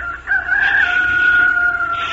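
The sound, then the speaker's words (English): A rooster crows once in a single long, drawn-out call, loud and clear over a faint low background. “The rooster started to crow.”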